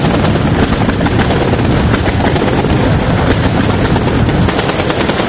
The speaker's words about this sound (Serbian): Eksplozije i pucnjave što odjekuju glavnim gradom Libije